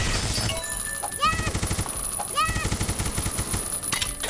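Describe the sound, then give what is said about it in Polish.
Rapid machine-gun fire in a video game, heard as repeated quick bursts of shots over a constant electronic backdrop with bright chirping tones. “Tutaj jest machine gun właśnie i możemy strzelać z niego na zasadzie tej.”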